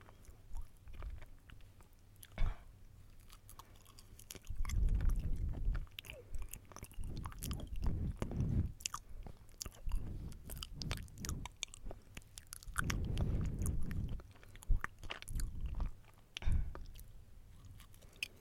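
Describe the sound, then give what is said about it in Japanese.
A banana being chewed and eaten: soft, moist chewing and squishy bites that come in a few louder bursts over a steady low background, with no talking. “そのなんかすごいスパンでバナナを食べています。”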